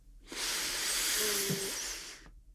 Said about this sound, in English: Take a deep breath.